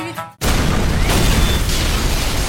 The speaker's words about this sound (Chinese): 他们家炸了！